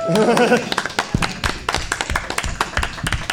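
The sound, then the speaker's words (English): Irregular clapping from a few people, sharp separate claps and taps of uneven rhythm, mixed with voices talking over them. “This is a man who typically does not imbibe often, so applaud this.”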